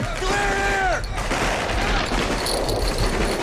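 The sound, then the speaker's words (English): Rapid gunfire crackles through a military-style training exercise where blanks are fired and recorded battle sounds are piped in amid smoke. It is one dense, loud, continuous volley with a brief wavering tone near the start. “There's smoke and machine gun fire.”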